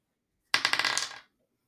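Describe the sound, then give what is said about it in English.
A six-sided fate die marked with symbols is rolled: a quick burst of sharp, rattling clacks as it tumbles across a surface, fading within about a second into silence. “It is a D6 with symbols on it. Oh. So the fate die came up blank.”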